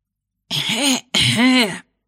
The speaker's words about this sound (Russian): Закашлялся судья